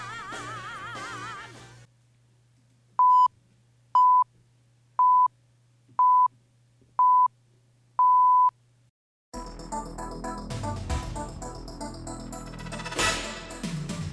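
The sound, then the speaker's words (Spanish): Radio hourly time signal: six evenly spaced, mid-pitched electronic beeps about one second apart, the sixth held longer than the others, sounding alone over a faint low hum before louder sound takes over. “Como señalan los pitidos, es la hora en punto, una hora menos en Canarias”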